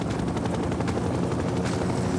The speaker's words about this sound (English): The helicopter flies away over the low trees and into the pale blue sky.